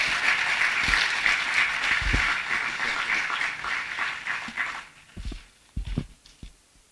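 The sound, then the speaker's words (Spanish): A church audience claps as an offering of praise to God, a dense wash of applause that fades out after a few seconds, leaving a few scattered thumps. “Ofrenda de palmas al Señor.”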